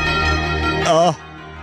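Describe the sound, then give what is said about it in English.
A horn sounds in a sustained, brassy tone that breaks into a short wavering blast and then cuts off, used to mark NFL playoff news on a Sunday. “God, those horns, those bells. Here are the horns.”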